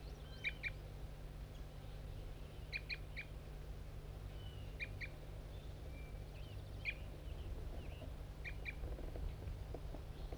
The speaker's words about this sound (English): Start recording bird 5-3 giving aggressive fight notes.